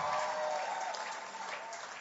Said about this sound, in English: If you want to clap, clap well.